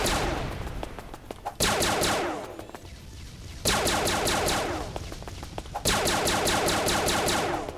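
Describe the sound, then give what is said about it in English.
Enemy gunfire in a video game, dense rattling rapid shots that surge in three strong waves over continuous background firing, loud and without talk. “He's gonna start shooting me like crazy, though.”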